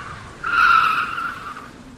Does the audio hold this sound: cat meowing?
no

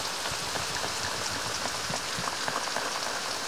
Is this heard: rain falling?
yes

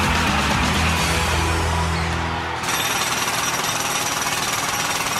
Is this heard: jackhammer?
yes

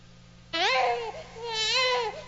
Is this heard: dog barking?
no

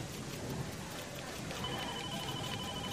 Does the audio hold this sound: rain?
yes

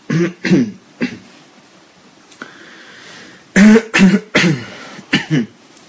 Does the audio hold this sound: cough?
yes

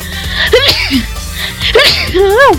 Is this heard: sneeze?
yes

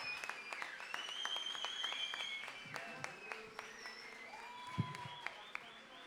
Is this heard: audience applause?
yes

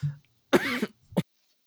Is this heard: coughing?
yes

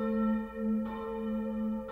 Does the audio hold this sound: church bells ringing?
yes

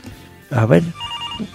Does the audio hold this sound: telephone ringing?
yes

